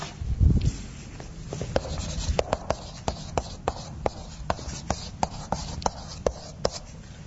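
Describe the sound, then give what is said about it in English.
Handwriting: a steady run of many short, scratchy strokes and taps, faint and fairly regular, with no talk. “So the mechanism, I'll write the mechanism down.”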